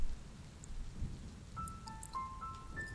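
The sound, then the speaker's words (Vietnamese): Night rain falling over a village, a faint, steady patter and hiss, with a few thin, high tones appearing toward the end. “Tới gần sáng mưa mới tạnh hẳn. Cơn mưa đêm qua khiến con đường làng trở nên lầy lội, khó đi vô cùng.”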